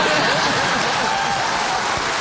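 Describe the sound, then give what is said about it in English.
Studio audience clapping on a talk show, a dense, continuous wash of applause at fairly high level that holds steady from start to finish, with no break. “Yeah, well, actually, you can clap.”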